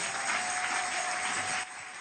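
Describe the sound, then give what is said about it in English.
Applause from a church audience honouring a guest: a dense, steady wash of many hands clapping at once, loud throughout and easing slightly near the end, with a faint constant tone running beneath it. “Clap for him.”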